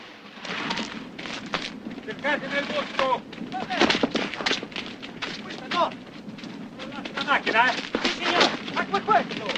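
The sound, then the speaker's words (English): Repeated gunfire from two men shooting at someone running for a car comes in sharp, irregular bursts of varying loudness, with voices mixed in among the shots. “John runs for the car. Leroy has him in his sights. He and Harry fire.”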